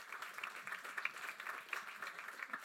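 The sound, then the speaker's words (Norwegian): Faint audience applause greets a guest at a panel event with light, uneven clapping that rises and dips in small waves. “Hun kan få en applaus også.”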